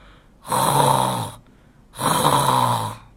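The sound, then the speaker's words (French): Two long, loud snores from a father mouse in a children's bedtime story, each lasting about a second, separated by a short quiet pause. “« Papa souris, papa souris !» crie bébé souris. « Tu ronfles !»”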